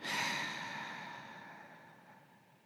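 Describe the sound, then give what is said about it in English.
A deep exhale, part of an inhale-and-exhale exercise, heard as one long, soft, airy breath that starts strongest and slowly fades over a few seconds. “One more time, deep inhale and exhale.”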